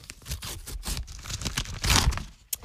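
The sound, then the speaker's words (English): A paper envelope is torn open: a run of crinkly rips and rustles, building to a louder, longer tear near the end, followed by one sharp snap. “Let's see what's inside the envelope for this morning. Here we go.”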